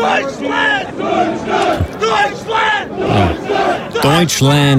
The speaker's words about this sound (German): Ja, man muss sie halt ein bisschen anfeuern. Und in Amerika klingt das ein bisschen so.